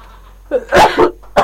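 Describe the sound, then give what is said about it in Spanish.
A person with a cold sneezes: a short sharp intake, then a loud explosive burst followed by a few more forceful bursts, all close together. “Espérame que voy a estornudar.”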